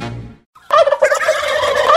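Turkey gobbling: a loud, rapid, warbling rattle that runs for over a second after a brief pause, alone with no talk.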